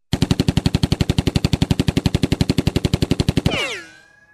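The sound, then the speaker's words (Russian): Gunfire from a Colt .45 revolver cuts loose in a long, rapid, evenly spaced burst of many loud shots, then ends in a ringing decay with falling tones. “Достал он свой кольт 45-го калибра и пристрелил Кощея в голову.”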